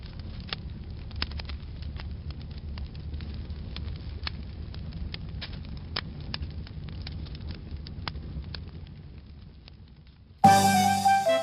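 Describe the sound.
Fire burning on a stove, a steady low roar scattered with many sharp crackles and pops for about ten seconds. At the very end a louder tonal, musical sound abruptly cuts in.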